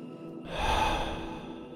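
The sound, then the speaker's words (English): One deep, slow breath is taken in through the nose and let out through the mouth during a guided relaxation exercise. The soft, airy rush swells and then holds, with no talk. “Take a nice filling breath in. Breathe in deeply through your nose and breathe out slowly through your mouth.”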